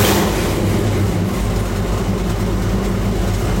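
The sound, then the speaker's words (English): A car engine idling with a deep, steady rumble at constant loudness, with no voices. “I think the tap of the throttle where it settles and idle should tell you a lot right there. I feel like that is an LS.”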